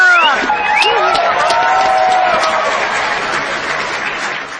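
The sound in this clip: A crowd applauds and cheers a singer at a village singing contest in Barangay Batuon. Dense clapping mixes with shouted voices near the start, then gradually eases toward the end.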